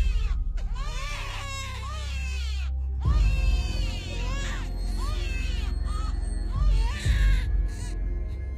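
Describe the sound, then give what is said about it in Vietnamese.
Many babies crying shrilly: overlapping, high-pitched wails rise and fall throughout, with no pause, over a steady low rumble. “Những tiếng khóc vẫn cứ vắng vất, không phải là một mà là rất nhiều tiếng khóc cứ thế mà cất lên choe choé.”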